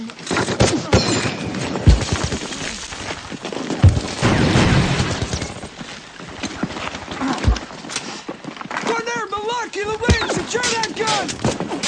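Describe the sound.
A grenade explodes in a combat scene: loud, booming bursts amid rough, rapid crackling, followed near the end by shouting voices.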